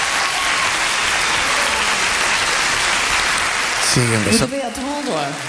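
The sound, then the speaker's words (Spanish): Sustained audience applause follows a live jazz-style song at a concert, a thick, steady wash of clapping; near the end a voice speaks over the fading applause. “Siguen los aplausos”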